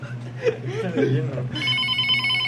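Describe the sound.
A telephone rings as a call comes through. People talk first, then a steady electronic ring starts about halfway and continues to the end.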